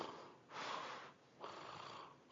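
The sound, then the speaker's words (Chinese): Deliberately forced snoring breaths from a person imitating a snore: two drawn-out, breathy, hissing exhalations, each about half a second long with a short pause between, fairly faint and with no talking. “打呼了嘛，我就故意呼出来，然后我就听着那呼。”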